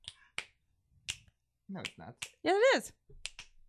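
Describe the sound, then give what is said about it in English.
Fingers snap several times in crisp, sharp, fairly quiet clicks at irregular spacing. Brief bits of talk fall between the snaps. “Do you guys realize that snapping is the sound of it hitting your thumb?”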